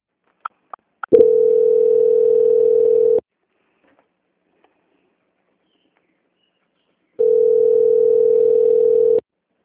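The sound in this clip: Steady telephone line tone heard while a call is transferred: a few short clicks, then two long stretches of even, unchanging mid-pitched tone separated by a pause of silence.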